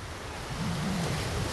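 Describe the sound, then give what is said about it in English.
Waves lapping on white sand at a Mediterranean beach on the Spanish island of Formentera, a soft continuous wash of surf that swells slightly partway through, with no voices. “Blue turquoise waves lap at white sand here on the Spanish island of Formentera in the Mediterranean.”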